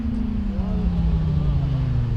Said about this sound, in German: Beim nächsten Motorrad fällt Thomas Schreck die Lautstärke auf. Einmal bitte den Motor ausschalten